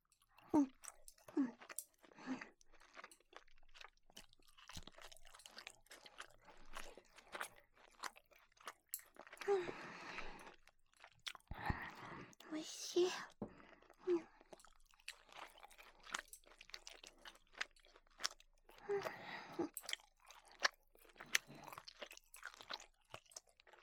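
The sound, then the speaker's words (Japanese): Someone chews food over and over, each bite a soft crunch, with many moist munching sounds in an uneven rhythm and quiet gaps between them. No one speaks. “よく噛んで食べないと喉に詰まっちゃうからね。あなたもしっかり噛んで食べてね。”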